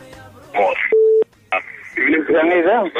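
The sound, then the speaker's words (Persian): A telephone call is dialed and connected on a radio show: a single short, steady beep tone sounds between stretches of people talking. “میریم به طرف تماس و ببینیم کدام عزیز است”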